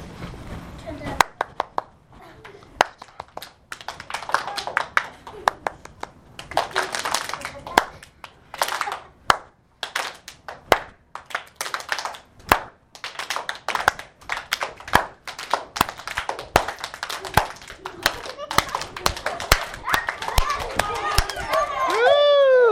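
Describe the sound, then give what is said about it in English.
Children clapping in a round of applause: many sharp hand claps come in uneven bursts, some loud and some softer, with voices and talk between the bursts. “Clap for yourself, clap for yourself. Now give yourself a round of applause.”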